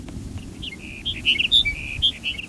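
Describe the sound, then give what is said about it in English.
Sage sparrow song about a mile from Benton: a short series of thin, high chirping notes, growing louder in the second half, over a steady low rumble. “Here's Sage Sparrow number 5 for 1 mile to Benton.”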